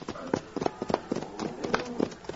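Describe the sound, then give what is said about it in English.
Horses trot along behind cattle being driven to market. Many quick, uneven hoofbeats clatter steadily at moderate loudness throughout. “they're trotting along behind dust clouds which mark the cattle”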